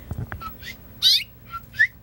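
A mother bird calls near her nest with a few short, high chirps over a quiet background. The two loudest calls fall near the middle and near the end.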